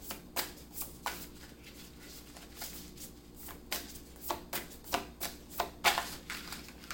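Tarot cards being shuffled during a tarot reading: many crisp, papery riffling bursts follow in an uneven rhythm, faint and with no talk over them.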